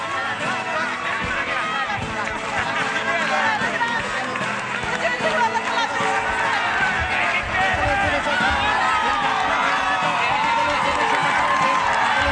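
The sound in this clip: A crowd cheers and shouts as Santoro enters the Paladozzo venue in Bologna before elections, a loud, continuous roar of voices, whoops and applause that builds steadily throughout.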